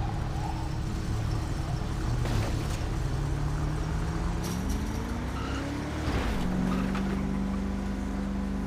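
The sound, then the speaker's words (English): Engine of a highway patrol police car, a Department of Public Safety vehicle in a video game, droning steadily and loudly, its pitch climbing gradually before dropping sharply and settling into a lower hum. “This is one nice highway patrol vehicle. I'm glad I found this Department of Public Safety vehicle.”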